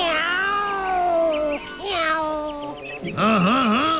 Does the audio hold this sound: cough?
no